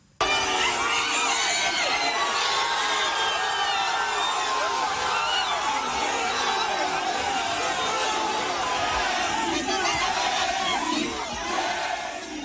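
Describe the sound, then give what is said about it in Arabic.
Hundreds of fans gather outside Lionel Messi's hotel on his 39th birthday, cheering and shouting, with high-pitched cries rising over a dense, loud roar that holds steady and eases slightly at the very end. “بمناسبة عيد ميلاده 39 اتجمعوا المئات خارج الأوتيل تبعه للاحتفال فيه بمشهد مليان هتافات وأضوية وهواتف مرفوعة.”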